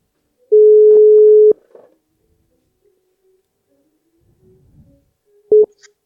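A telephone ringback tone sounds while a call is placed to a man's wife: one steady mid-pitched tone lasting about a second, a long near-silent gap with faint rustles, then a second tone that cuts off after a moment.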